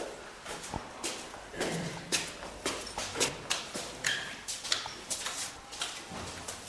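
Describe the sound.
Footsteps walking into a house and climbing a few small steps. Many soft, evenly spaced treads sound quietly in a steady rhythm.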